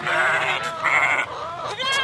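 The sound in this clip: Sheep bleating on a farm with a large flock: a few loud, wavering, nasal calls in quick succession, standing alone with no talk.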